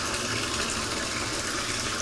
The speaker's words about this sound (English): it's so fun to watch the bathtub fill up with water.